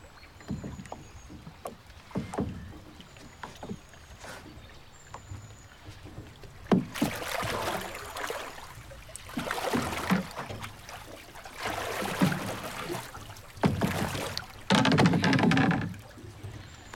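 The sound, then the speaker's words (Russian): A girl rows a boat with an oar; repeated strokes splash and slosh through the water at an irregular pace over a faint, steady background. “Девочка села в лодку. Взяла весло и начала грести.”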